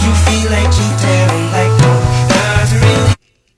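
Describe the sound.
A pop song plays from an iPhone: a steady, loud mix of beat, bass and layered melody runs for about three seconds, then cuts off abruptly into silence.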